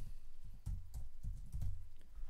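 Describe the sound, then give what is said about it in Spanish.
Soft keystrokes on a computer keyboard as a password is typed, a few quiet clusters of taps in an uneven rhythm. “Escribo la contraseña y la repito.”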